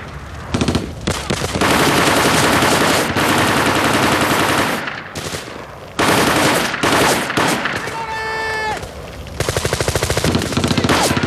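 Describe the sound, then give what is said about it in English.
Bursts of automatic gunfire as marines and fleeing insurgents exchange fire, several long, loud rapid-fire volleys separated by brief gaps, ending in quicker, choppier bursts. “Ahmad turns and lets rip with another burst of fire. Marines continue to fire in the general direction of the fleeing insurgents.”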